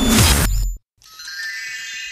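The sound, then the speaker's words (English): A toy magic wand chimes with bright, sustained electronic tones. Before it, there is a brief loud burst of other sound and a short moment of silence. “So that's going to annoy you now, isn't it? We need to put the wand away. This is last night's fun. I know that you bought it on the train with you, so that was going off for about 4 hours.”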